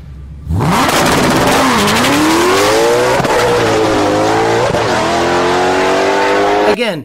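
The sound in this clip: Loud, continuous engine roar of a drag race car launching on bias-ply tires, with a front-feed Whipple supercharger and about 800 horsepower. The pitch climbs, drops back at each shift, and climbs again for about six seconds before cutting off abruptly.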